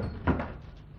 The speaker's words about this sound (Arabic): اقعد يا فرهود، وانت اقفل الباب.